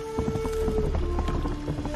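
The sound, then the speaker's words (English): Hoofbeats of a horse galloping through puddles in a video game, with water splashing under rapid, rhythmic thuds over a steady, loud background drone with sustained tones. “And even like when the horse is galloping in puddles, there's water splashing.”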